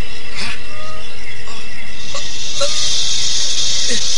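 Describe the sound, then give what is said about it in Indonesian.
Many yellow venomous snakes hiss, building into a steady, loud, high-pitched hiss over the second half against a busy, noisy background. “Uang emas itu berubah jadi ular. Berbahaya. Ayo menghindar. Ular berbisa.”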